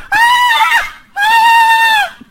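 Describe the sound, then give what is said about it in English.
A woman screaming in agony lets out two loud, high-pitched, sustained cries, each close to a second long, separated by a brief gap. “She screams, but cannot stop the agony.”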